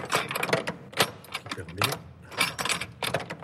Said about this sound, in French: Et voilà, la clé du trésor.